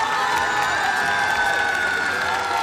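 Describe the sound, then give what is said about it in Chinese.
Applause and cheering from the audience at the first concert of a Chinese traditional-style music club, welcoming the club's hosts to the stage. The clapping and whoops form a steady, dense roar, and voices mix in throughout. “首先让我们掌声欢迎”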